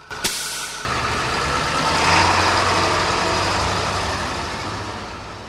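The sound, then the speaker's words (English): The diesel engine of a battery-and-electric-motor hybrid bus starts with the ignition key. A brief click comes first, then the engine catches and settles into a loud, steady rumbling idle that eases slightly toward the end. “As Jennings climbs into the driver's seat and turns the ignition key, it's a diesel engine responding.”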